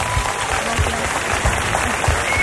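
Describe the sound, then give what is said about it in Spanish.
Audience applause fills an auditorium, dense steady clapping that continues unbroken through the whole moment at a fairly even loudness. “Sí, sí, un aplauso muy fuerte para ella.”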